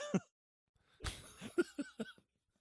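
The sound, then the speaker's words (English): Snorting amid laughter: a handful of short, sharp nasal bursts breaking out in quick, uneven succession. “God, I am like snorting and everything here.”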